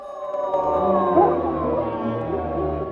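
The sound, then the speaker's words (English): Howling rising from a forest at night, heard from a cabin: long, overlapping, wavering tones that hold steadily for several seconds at an even, moderate level, with no talk over them. “She becomes aware of the howling and sits upright.”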